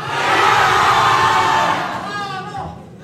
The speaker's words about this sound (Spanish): así que por favor que se escuchen fuerte los ánimos y los apoyos para su participante favorito